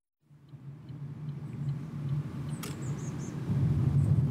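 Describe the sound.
Steady low rumble of a car driving through a palace park. The engine and road noise stay continuous and fairly even, growing a little louder toward the end, with one brief faint tick midway and no talk.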